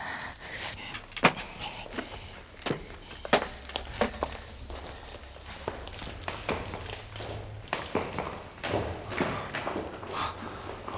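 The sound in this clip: Footsteps climbing a staircase: many irregular taps and scuffing treads at a moderate level, with no voices.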